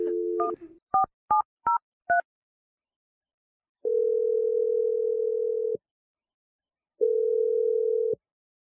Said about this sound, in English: I'm going to dial it right now.